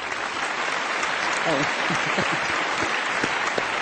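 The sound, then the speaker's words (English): A conference audience applauds to welcome a special guest of honor. The clapping is full and sustained at an even level, and brief voices cut through it midway. “Let's all give a big round of applause to welcome Supreme Master Qinghai, our special honor guest.”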